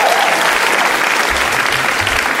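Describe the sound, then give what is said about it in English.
A live audience applauds the guests of an evening show with loud, sustained clapping that stays even throughout. “Can we please give one more hand to all our guests tonight?”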